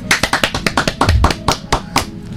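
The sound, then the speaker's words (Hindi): Children clap after a prayer: many crisp, separate handclaps in a quick, slightly uneven rhythm, sparse enough that individual claps stand out. “Very good very good भाई, तालियां बजा दो बच्चों।”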